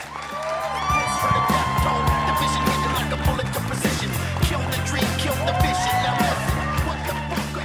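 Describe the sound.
Audience cheering and whooping after a live rap-rock performance, a steady loud roar of applause and shouts with high whistles and yells rising above it throughout.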